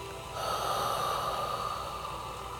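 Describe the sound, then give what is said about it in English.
A long, steady breath drawn in through the nose, heard as soft, breathy airflow that swells after a quiet start and holds before easing off, during a guided Reiki meditation. “And take a deep breath in through your nose and out through your mouth.”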